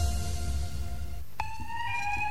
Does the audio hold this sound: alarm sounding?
yes